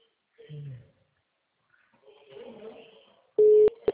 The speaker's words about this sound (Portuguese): está chamando, ela não desligou, mas também não está atendendo.